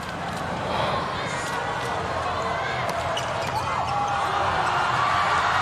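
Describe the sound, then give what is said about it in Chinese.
Crowd noise and ball play from a volleyball quarterfinal between Japan and China, fourth set, as a serve scores an ace to end the match. A dense, steady crowd roar runs throughout with faint ball impacts, and a commentator talks over it. “最后福田将马发球直接得分，这样的话这比赛结束了。”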